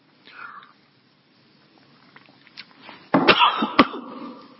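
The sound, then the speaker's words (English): Coughing from a person with a tickle in the throat: after near quiet, a loud, short cluster of harsh coughs bursts out near the end. “Got a bit of a tickle in my throat, sorry about that.”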